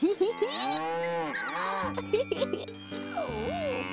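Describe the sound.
A herd of cows at the edge of a forest moos several times with long, wavering calls, while cowbells clink in the background.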